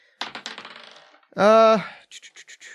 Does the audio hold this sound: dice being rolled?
yes